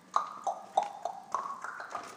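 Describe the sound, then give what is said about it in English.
A man's footsteps on wood paneling: a steady, quick series of hollow knocks with a slight ringing tone, evenly paced and fairly faint, with no talk. “This is the sound of the man walking on wood paneling, I think.”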